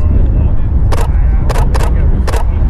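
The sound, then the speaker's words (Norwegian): A camera shutter fires a few times as photos are taken, giving short, crisp clicks over a steady low rumble of background noise. “Jeg tar et bilde av deg, og så går jeg og prater med han.”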